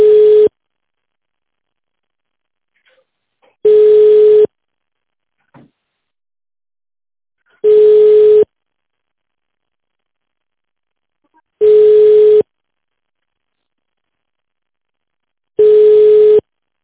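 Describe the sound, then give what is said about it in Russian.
Telephone line tone while a caller waits on hold: five short, steady beeps of one pitch, evenly spaced about four seconds apart, with silence between them. “Оставайтесь на линии. Вам ответит первый свободный сотрудник.”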